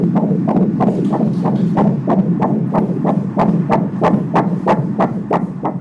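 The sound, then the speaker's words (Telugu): Fetal heartbeat on a 30-week pregnancy ultrasound scan, a fast, even train of soft whooshing throbs over a continuous low hum, with no talk. “Heart beat అది మంచిగా ఉన్నది”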